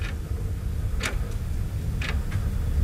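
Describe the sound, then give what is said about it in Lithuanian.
A clock ticks faintly, with soft sharp clicks roughly once a second, over a low, steady background hum. “Net laikrodis, kad girdis.”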